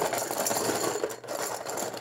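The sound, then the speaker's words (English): Raffle tickets are being mixed inside a popcorn can, making a continuous, fairly loud rustling rattle. The paper churns steadily with only a brief dip, and no one speaks. “It's a popcorn can. And he's mixing them all. Mix them all up.”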